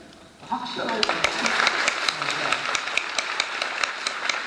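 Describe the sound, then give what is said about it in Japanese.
Applause breaks out after a brief quiet moment, a dense, steady patter of many hands clapping that holds at an even level, with voices talking over it at the start. “拍手 が入ってます。”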